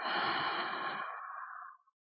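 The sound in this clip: A slow, deep breath taken during guided meditation, a soft airy rush of breath lasting under two seconds that thins toward the end and fades away, quiet and alone without talk.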